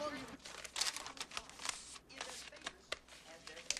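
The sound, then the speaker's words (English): Rustling and crinkling of a piece of paper being folded into a small packet, many soft, uneven crackles and scrapes at low volume. “Paul's in his room, folding up a piece of paper. He's made a small packet and hides it under the covers.”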